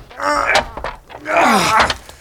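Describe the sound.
A locked, rotten wooden door being pushed against: dull thunks and bumps mixed with drawn-out, groaning creaks that rise and fall in strained pitch.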